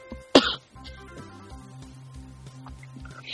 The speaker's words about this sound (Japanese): でもすごい咳が出るの。